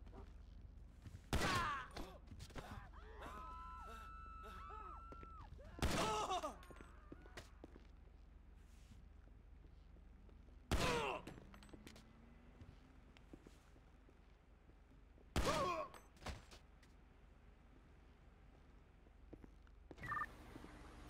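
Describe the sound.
Gunshots in a police role-play video game, fired during an incident at a drug farm. A few loud, sharp shots land several seconds apart over a low, steady background.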